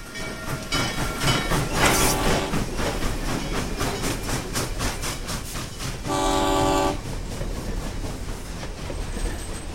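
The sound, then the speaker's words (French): A train with railway wagons rolls along the Stones Hill railroad in Tampa, a continuous rumble with rhythmic clickety-clack, broken by one loud, steady horn blast late in the sequence before the rolling resumes. “Là, les navires furent déchargés dans les wagons du railroad de Stones Hill”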